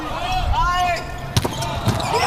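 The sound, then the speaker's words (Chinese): A volleyball serve during a match involving the German team: a couple of sharp, punchy ball impacts under ongoing talk. “好，发球。”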